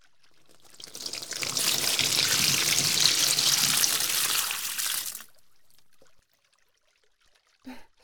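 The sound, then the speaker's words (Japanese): Rushing water rinses shampoo out of hair, building up within a second and then pouring steadily for about four seconds before stopping abruptly, followed by near silence and one brief faint sound. “全部流しちゃいましょうね。”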